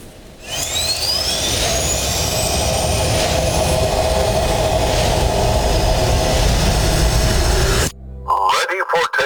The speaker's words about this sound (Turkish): Milli jet uçağımız performansıyla göz doldururken gurur dolu anlar